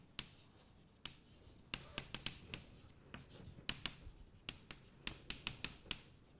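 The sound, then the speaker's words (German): Writing on a board during a quantum physics lecture: many short, faint scratchy strokes in an irregular rhythm, some clustered in quick runs, with brief pauses between words. “Also ich schreibe auf, keine unendliche Amplitude.”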